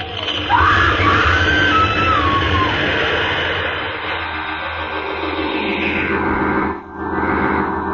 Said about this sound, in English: Something's happening. What? The house. It's shaking. Oh, we've got to get out of here. The house is caving in.